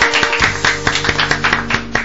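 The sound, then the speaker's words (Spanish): Applause from an audience, heard as steady rhythmic clapping at a quick, even beat over sustained musical tones. “Gracias, aplausos.”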